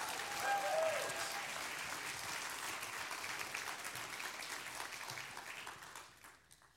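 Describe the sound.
Audience applause welcomes a speaker at a summit morning session. Dense, sustained clapping holds steady for several seconds, then thins and fades toward the end.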